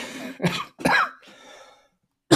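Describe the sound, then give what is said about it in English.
Coughing from a lingering cough: a few harsh, rough bursts, then a raspy, drawn-out breathy wheeze, with another cough starting at the end. “I've had this cough that's just lingering. So I apologize if I occasionally start coughing into the mic.”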